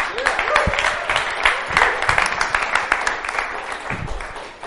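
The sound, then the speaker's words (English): Audience applause welcoming a guest speaker after a prayer: dense, many-handed clapping that stays steady, with a few low thumps and some faint voices underneath. “Let's put our hands together. Welcome, Steve.”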